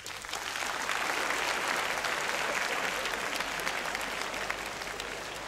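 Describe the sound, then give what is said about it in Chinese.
Applause from an audience at a live Cantonese storytelling show, a dense, steady patter of many hands clapping that swells quickly and holds at an even level for several seconds. “拍一拍手。”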